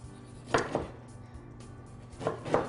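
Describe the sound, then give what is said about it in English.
A knife cuts slices from a baked biscotti loaf on a board, making four crisp, crunchy thuds in two quick pairs with a quiet pause between them. “So we're going to have to take this loaf. And we're going to cut them into slices about three quarters of an inch thick.”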